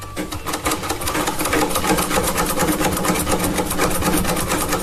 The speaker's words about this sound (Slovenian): Nisi pogosto sedela za šivalnim strojem, bi rekel. Ja, Singer, ja. Bi rekel Singer.